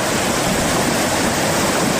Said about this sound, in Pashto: د دوی په خبره چې اوس هم په خوړ کې پریمان اوبه بهیږي